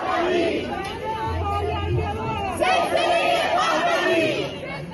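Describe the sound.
Crowd of protesters at a rally held against daily executions in Iran and in support of people under a nationwide internet blackout, gathered from many cities and countries: a dense, continuous babble of many voices without pause.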